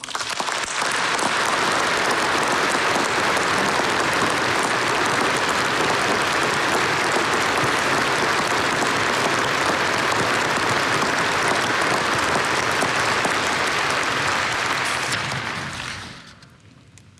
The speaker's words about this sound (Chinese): 让我们再一次用热烈的掌声向为改革开放做出杰出贡献的人员表示衷心的祝贺和崇高的敬意。